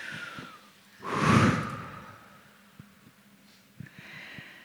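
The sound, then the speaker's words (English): A single deep breath swells as a soft rush of breathy air, rising and then fading, with a few faint clicks and small noises in the quiet stretches around it. “Take a deep breath.”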